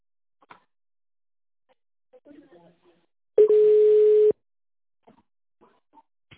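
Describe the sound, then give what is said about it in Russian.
A single steady telephone line tone, about a second long, sounds while a caller waits on the line to be transferred to a specialist. Faint, scattered background sounds come before and after it. “оставайтесь на линии, ваш звонок будет переведен на специалиста”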